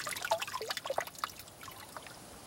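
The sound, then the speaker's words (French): Spring water trickles from a village fountain that supplies the whole village. It makes a soft, continuous babble of small splashes and drips, busiest at first and then thinning to a gentle steady flow. “Ben c'est l'eau qui vient de la source et qui alimente tout le village.”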